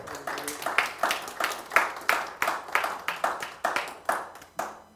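Audience clapping in a church service, offered as applause to God: many sharp, separate hand claps in a fairly steady beat, with each clap ringing briefly before the next.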